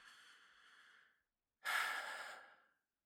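A person takes a deep breath: a soft, airy inhale, a short pause, then a louder, longer breath out.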